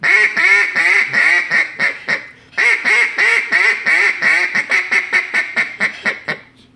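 A hand-blown duck call produces loud chattering quacks in rapid strings. A brief pause comes midway, then the notes turn shorter and choppier toward the end.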